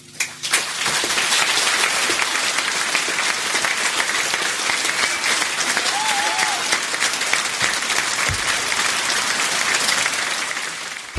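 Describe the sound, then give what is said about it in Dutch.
Crowd applause and cheering at a Dutch CDA party election-night gathering after a winning campaign. Thick, continuous clapping holds at a loud, even level for the whole stretch, with a brief voice rising above it. “Wat een geweldige avond. Juich maar even.”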